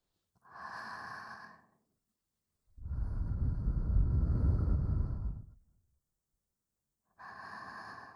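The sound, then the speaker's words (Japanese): Soft ASMR breaths are blown into the listener's ear, three airy exhalations with the middle one long and sustained, faint and alone with no voice. “お耳に息も失礼いたしますね。”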